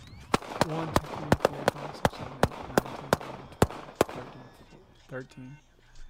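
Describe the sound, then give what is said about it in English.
Gunfire rings out as a rapid series of sharp, loud shots, many in quick succession, with agitated voices shouting around and between the bangs. “13 shots? Seriously? 13?”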